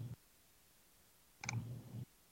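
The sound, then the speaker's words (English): Faint clicking as slides are clicked through on a computer: a brief click at the start, then after a pause a slightly longer clicking burst, both quiet and alone. “I'm clicking through this right now. Give me 1 second.”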